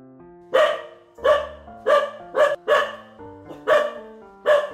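A dog barks at something in the woods after dropping a bun it was eating: many loud, tonal barks in an uneven rhythm over a sustained low musical background.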